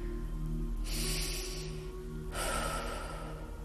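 A deep breath in and then out during a guided relaxation exercise. Two long, airy breath sounds are heard alone over a low steady hum, with a short pause between them.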